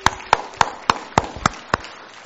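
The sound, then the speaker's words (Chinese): A church audience clapping in steady unison, seven sharp claps in even time, then quiet. “为着他们今天被主拯救，我们再一次用我们热烈的掌声祝贺他们。”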